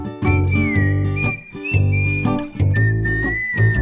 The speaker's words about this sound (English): I know a boy who keeps on whistling